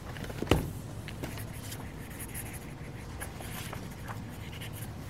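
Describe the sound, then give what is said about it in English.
A pen signing books: faint, rhythmic scratching strokes across paper, with one sharper tap near the start and otherwise quiet, even writing sounds. “I was like hypnotized by the sound and the rhythm of him signing those books.”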